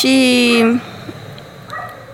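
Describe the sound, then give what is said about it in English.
Andy the dog lets out a single loud, drawn-out bark that trails into a whine, followed by quieter speech. “But now, Andy, my dog, sorry about that.”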